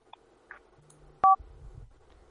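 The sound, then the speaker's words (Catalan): A single short electronic beep marks an incoming telephone call connecting on a radio phone-in. The sharp, brief tone stands out against faint line hiss and a few soft clicks. “Calla, tenim una trucada, vinga.”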